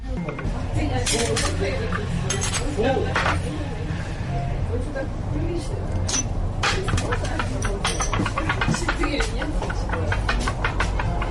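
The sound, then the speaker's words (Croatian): Glass laboratory bottles clink in a shop as they are set down and handled. Many sharp, bright clinks and taps come in an irregular stream over a low background noise. “zvuci stakla i zvuci ovih laboratorijskih flaša, to je zvuk naše radnje”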